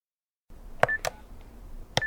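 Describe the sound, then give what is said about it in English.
A landline telephone is dialed in a home kitchen to call a friend: a few short, faint touch-tone beeps at uneven intervals over a low background hiss. “picks up a phone to call a friend”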